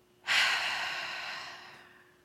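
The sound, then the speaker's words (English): A deep breath taken and released during a guided relaxation exercise: one long, airy breath sound that starts abruptly, peaks early, then slowly fades out, heard alone without talk. “Take a deep breath in. Release.”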